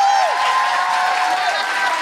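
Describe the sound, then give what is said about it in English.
Audience applause at a live evening show: a dense, steady wash of clapping that holds at an even, fairly loud level for about two seconds. “can I have a huge, huge round of applause for Zoe Brownstone?”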